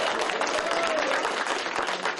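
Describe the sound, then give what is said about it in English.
Applause from a football team celebrating a close division win: dense, steady clapping fills about two seconds without a break, with some voices mixed in. “Hey, give yourself a round of applause.”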